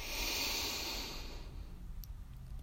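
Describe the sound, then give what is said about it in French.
Breath drawn in through the nose during a guided breathing exercise: one soft, airy inhale that lasts about a second and a half, then fades to near silence. “Inspirez par le nez.”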